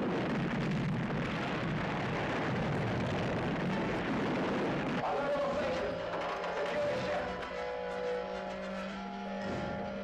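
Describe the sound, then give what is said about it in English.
Ships exploding in a drama: a dense, continuous roar of explosions fills the first five seconds, then gives way to sustained, music-like tones. “Ships. They simply explode.”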